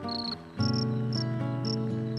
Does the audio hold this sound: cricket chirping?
yes